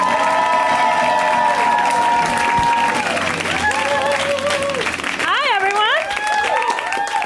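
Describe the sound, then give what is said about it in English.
An audience claps and cheers loudly for a comedian taking the stage at a stand-up show, a continuous roar of applause and whoops that carries through the whole stretch. “Keep it going. First time around the show. Extra loud. Let's hear it for Olga Koch. Give it up.”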